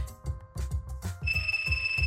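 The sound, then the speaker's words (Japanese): A telephone ringtone starts partway through: a steady, bright, high electronic tone that holds to the end over soft low thumping sounds. “おっと電話だ。”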